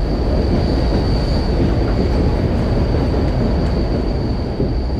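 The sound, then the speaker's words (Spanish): An international express passenger train passes through a station with a loud, continuous rumble of wheels on rails. A thin, steady high squeal rides over it throughout, and no voices are heard. “muy pronto empezó a pasar por nuestra estación el tren expreso internacional Balt Orient, que llegaba desde Viena”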